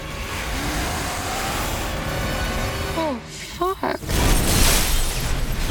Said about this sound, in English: The trooper's car explodes, flying into the air.